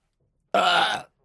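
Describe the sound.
A single loud burp rolls out for about half a second and stops abruptly, heard on its own with no talk over it.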